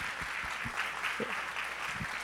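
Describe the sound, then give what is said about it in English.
Applause from a standing church audience: many hands clapping in a continuous, even wash, with a few soft low thumps mixed in. “Hey, and let's clap for the people that raised their hand.”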